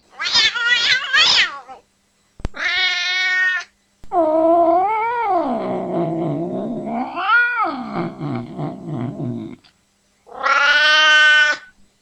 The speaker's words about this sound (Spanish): Gato asustado. Gato enojado.